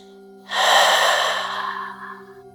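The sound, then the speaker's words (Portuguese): A single deep breath from a guided breathing exercise starts abruptly as a strong, airy rush and then slowly trails off, heard alone over a faint steady hum. “Mais uma vez, inspirando, 4, 3, 2, 1, segure, 3, 2, 1, e expire.”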